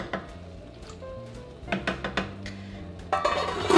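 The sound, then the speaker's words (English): A metal lid is placed on a cooking pot of vegan chana masala: a few light, separate clinks and knocks, then a louder rattling clatter toward the end. “And then you're gonna place the lid.”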